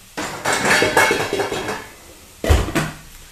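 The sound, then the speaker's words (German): A lid is set onto a cooking pot of water heating on the stove. Several metallic clatters and knocks are followed, after a brief lull, by a sharper, louder clank of metal on metal. “Deckel drauf und dann wird das Ding wahrscheinlich sehr, sehr schnell loskochen.”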